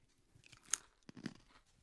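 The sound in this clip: Faint crunching as someone bites into and chews a chip, a few crisp cracks with a sharper bite near the middle, alone with no speech.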